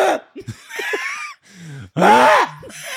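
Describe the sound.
A voice imitates a choking cough from a piece of carrot stuck in the throat: a few short raspy bursts, a low strained groan, then a loud harsh hacking sound that swells louder.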